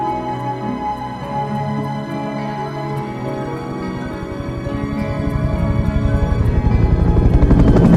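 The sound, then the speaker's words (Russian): A helicopter's rotor chops steadily in a foreign film scene. The pulsing is continuous and grows louder and denser toward the end, with no voices. “Вертолет улетел.”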